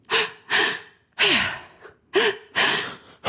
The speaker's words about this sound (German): Du atmest so ganz tief ein in den Bauch und in den Brustkorb und lässt die Luft dann wieder so raus. Das hört sich ungefähr so an.